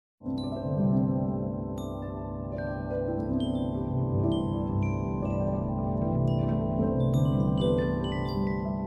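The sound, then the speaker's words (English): Sonified X-ray data from the Milky Way's galactic center: layered, steady synthetic drones hold throughout while scattered high, bell-like pings and short gliding tones sparkle above. Loudness stays even, with no voices. “That's the Milky Way galaxy, friends. Or at least, what it sounds like after NASA translated their data into sound.”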